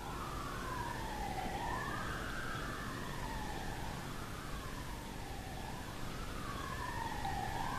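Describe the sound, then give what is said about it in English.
A police car siren wails faintly, heard from inside a church. Its tone sweeps slowly up and down in several smooth, repeating cycles that run steadily through the whole stretch, with no talk over it. “Is that a police siren? That's a police siren.”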